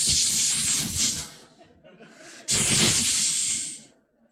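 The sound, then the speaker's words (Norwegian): A voice imitates a snake's hiss with two long, loud, breathy hisses. The second starts abruptly after a short pause and trails off at the end. “Jeg synes liksom, jeg ser for meg slangen, jeg. Har du hørt slangen? Den sier sånn,”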